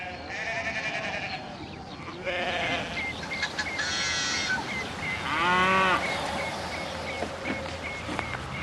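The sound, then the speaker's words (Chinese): Cattle and sheep herd on an alpine wetland meadow, with several bleats and a deeper lowing moo. The calls sound one after another over a steady outdoor background. “随着牧草生长，牛羊群聚集的越来越多”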